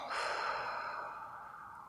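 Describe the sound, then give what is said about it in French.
A deep breath taken during a guided mindfulness exercise: one long, soft, airy rush of breath that fades slowly, with no talking. “Vous pouvez maintenant prendre une grande inspiration et une grande expiration.”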